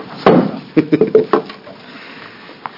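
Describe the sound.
A gavel tapped on wood at a legislative committee hearing makes a few crisp, hollow knocks in a quick, uneven cluster, followed by one faint tap after a pause.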